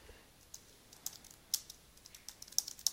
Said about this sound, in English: I'll just go ahead and type in a subject here.